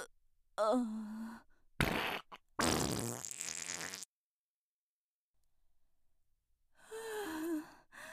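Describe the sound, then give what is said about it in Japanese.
A short, spluttering fart sounds among breathy human vocal sounds, including gasps and sighs, with quiet pauses between the bursts. “ケツ穴開いたせいでおなら出ちゃう。出る出る。”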